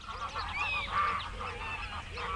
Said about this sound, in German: Gänse ziehen in Formation über den Himmel.